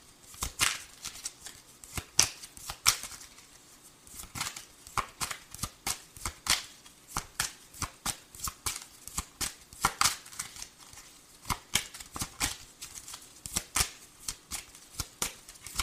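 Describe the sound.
Cards are shuffled before a reading card is drawn: many crisp riffling and slapping bursts in irregular clusters, fairly quiet and alone.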